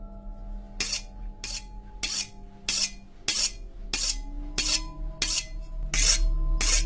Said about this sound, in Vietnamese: Lão Trung dùng mình vì nghe tiếng mụ mài dao.